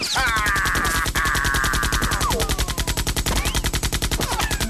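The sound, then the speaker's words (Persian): Machine gun fire, a rapid, relentless stream of loud evenly spaced shots hammering on without pause for the whole stretch. “نه اون کلت بود، اما این یه تیربار واقعیه، اسلحه یه که الان میخوام تو رو باش بزنم.”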